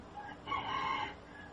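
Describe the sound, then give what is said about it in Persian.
A rooster crows once, a faint, drawn-out cock-a-doodle-doo call that swells in the middle and tapers off, heard alone without talk. “صدای خروس هم میاد”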